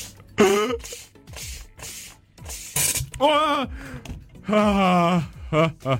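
Hissing, spray-like bursts of gas as a Sodastream soda maker injects gas into milk, several rough spurts mixed with loud gasps and drawn-out cries from people reacting.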